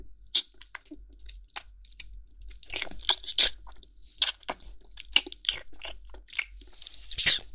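Crunchy biting and chewing of food for eating ASMR, many sharp, crisp crunches in an irregular rhythm with wet chewing between them, close and quiet with no talking.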